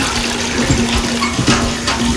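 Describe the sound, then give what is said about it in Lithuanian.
Heavy rain pours down in a dense, steady rushing hiss of water with a faint low hum beneath and occasional soft splashy bursts, continuous throughout with no voices. “Ir vėl pila kaip iš kibiro.”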